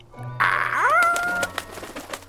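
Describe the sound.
A single bird call sounds alone, with a tonal coo-like note that bends upward and then holds steady. A few light clicks and ticks follow.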